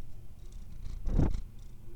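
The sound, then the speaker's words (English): Soft, steady purring from a house cat that wants to go outside, a continuous low rumble that swells briefly louder near the middle and then settles back to a quiet hum. “Does a kitty want to go outside?”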